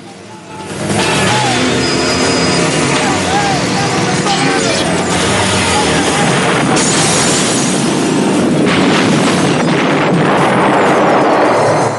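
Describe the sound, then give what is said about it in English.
A hardware store building blowing apart after grenades are thrown through its windows: a loud, sustained roar of blast and crashing debris that bursts in after a quiet first second and carries on for many seconds. “The whole building explodes.”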